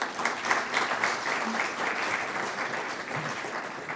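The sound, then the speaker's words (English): Applause welcomes a returning member at a church gathering: many hands clap in a dense, continuous patter at an even, lively level from start to finish. “so you've had a guard of honor, you've had hugs, you've had words of welcome and now applause, so it's great to have you back again.”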